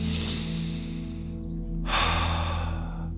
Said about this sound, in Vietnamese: cùng mình nhắm mắt lại hít vào một hơi thật sâu